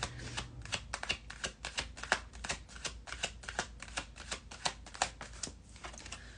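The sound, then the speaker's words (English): Tarot cards being shuffled before a card is pulled. Many crisp, quick riffling flicks come in an uneven rhythm, fairly soft and with no talking. “Morgan, you said, I'd love a card pulled for this week.”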